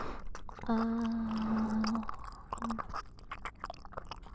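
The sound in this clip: Someone eats a sandwich with soft, faint chewing and crunchy bites in an irregular rhythm, along with a brief hummed voice.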